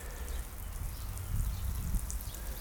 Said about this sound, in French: Là, ça arrose sur les côtés.